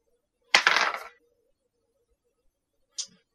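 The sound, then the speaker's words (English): Dice rolled for a tabletop role-playing intelligence check: a short, bright clatter of about half a second, then silence until one faint click near the end. “Yeah, give me just a straight intelligence roll.”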